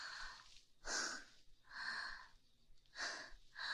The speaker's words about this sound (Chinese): 呼吸也这么快？